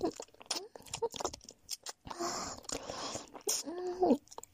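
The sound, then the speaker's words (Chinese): Wet kissing sounds with tongue licking: several soft, uneven mouth smacks and squishes with faint breathy vocal sounds, fairly quiet. “所以啊，让我再稍微欺负一下大哥哥吧。那接下来试试 kiss 吧。”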